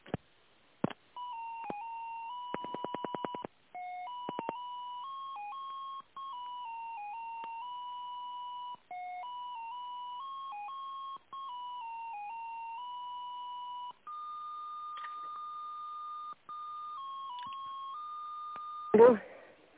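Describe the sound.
Electronic telephone tone heard on the line while a call is being transferred, playing as a melody of steady single notes that step up and down, broken by several short gaps and ending in a brief louder burst.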